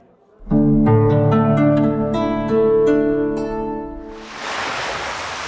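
Sea waves wash in at a five-star seaside hotel, a soft hissing surge that follows a sustained musical chord and continues alone to the end.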